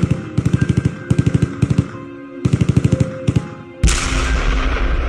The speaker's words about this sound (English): it was right when the invasion happened, so we heard the machine gun fire begin in the background.